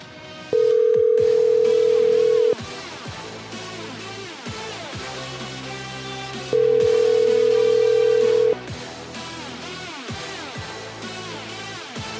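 Telephone ringback tone heard while calling a Little Caesars store: two long, steady ringing tones of about two seconds each, separated by a roughly four-second pause, over a quieter continuous background.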